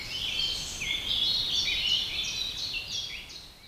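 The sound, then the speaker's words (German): Birds sing in the treetops of an old oak in spring, a dense stream of high, rapid chirps and twittering trills that overlap continuously at a moderate level, with no voices. “Vögeln in den Wipfeln der altehrwürdigen Eiche ist das wohl recht. Sie feiern auf ihre Weise. Den Mai, den Frühling und die Rückkehr des Lichtes. Sie singen und füttern ihre Jungen.”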